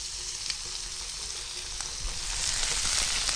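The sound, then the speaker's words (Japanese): Sizzling in a frying pan over medium heat as three tablespoons of ketchup are added to softened ingredients. The hiss is continuous, with faint stirring scrapes, and it swells slightly louder toward the end. “そうしたらここにケチャップを大さじ3杯加えます。”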